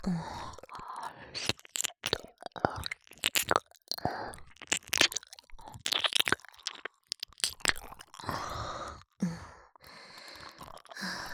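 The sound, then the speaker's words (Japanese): ASMR mouth sounds of a tongue licking and cleaning an ear: many wet clicks, slurps and smacks in irregular bursts, with soft breathy sighs in between. “こちらの耳の方が何かいっぱい溜まっています。しっかり舌でお掃除させていただきます。”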